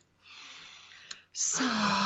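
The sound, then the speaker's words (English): A deep breath in during a guided meditation: a soft, airy inhale lasting about a second, then a louder, breathy, voiced release like a sigh. “Let's take a breath in.”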